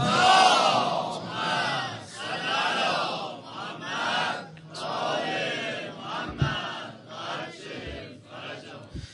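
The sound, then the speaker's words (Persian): A crowd loudly chants salawat, blessings on Muhammad, many voices roaring together in unison, swelling and easing in a few long waves with a brief sharp accent near the end. “یک صلوات جوندار با صدای بلند بر محمد و آل محمد”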